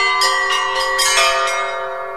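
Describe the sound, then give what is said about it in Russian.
Church bells peal from a bell tower as tall as a sixteen-storey building during a bell-ringers' festival in Chelyabinsk. A quick run of bright, overlapping strikes rings over a sustained metallic hum, with no voices. “На колокольню высотой с 16-этажный дом поднялись 15 мастеров. По очереди они исполнили свои любимые звоны.”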